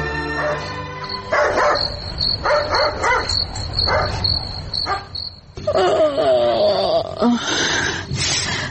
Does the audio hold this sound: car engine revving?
no